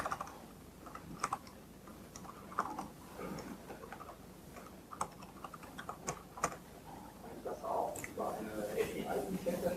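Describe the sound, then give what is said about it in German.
Keys clatter on a computer keyboard as a URL is typed, with many quick, uneven, faint clicks running under speech. “Sagt dann hier, dass ich einfach eine URL eingebe, wenn ich mal richtig tippen kann.”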